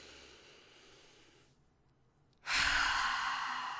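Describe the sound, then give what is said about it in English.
A deep breath taken during a guided breathing exercise: a faint airy breath, a brief pause, then a loud rushing breath that lasts to the end, with no talking. “I want you to just take a breath with me right now. Ready? We're going to breathe in.”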